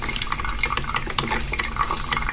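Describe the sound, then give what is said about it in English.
A coffee pot brews with continuous bubbling and gurgling, full of many small pops and spits over a soft hiss. The sound stays steady throughout, with no voices. “yesterday's secret sound was. It was a coffee pot brewing.”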